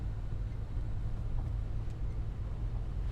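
A car being driven, heard as a steady low engine and road rumble that holds even and continuous throughout with no talking.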